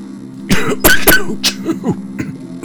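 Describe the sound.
Harsh coughing to clear something caught in the throat, with several loud bursts bunched early on, then a few softer throat sounds trailing off.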